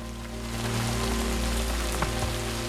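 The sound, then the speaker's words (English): Rain pelts on the roof of a black funeral car in a downpour, giving a steady, dense hiss of drops that holds an even level throughout. “Rain pelts on the roof of one car.”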